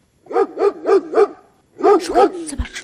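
Barking from a detection dog searching by scent for people infected with COVID-19: a quick run of four sharp, mid-pitched barks, a short pause, then several more barks in close succession.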